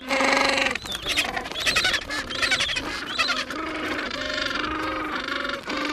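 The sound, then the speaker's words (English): Adult penguins squabbling in a colony as one chases two chicks. A loud, dense chorus of harsh, overlapping honks and brays runs without pause. “An adult penguin chases after two chicks, then another adult squabbles with the bully.”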